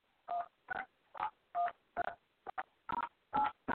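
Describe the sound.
Telephone keypad tones as callers press one, a quick series of short, bright beeps in an uneven rhythm, each burst clear and separate, with no talking over them.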